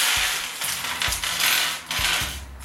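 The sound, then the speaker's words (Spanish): A plastic bag of spare PC case screws is opened, giving crinkly rustling bursts with small metallic clinks and a few low thumps. “vamos a abrir ya la bolsa de los tornillos de la... Esto ya me lo quito de en medio. La bolsa de tornillos de la caja”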